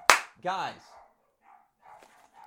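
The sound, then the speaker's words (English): Dog barking: a sharp bark, then a longer tonal bark, followed by quieter voices talking. “Sorry for the dogs in the background.”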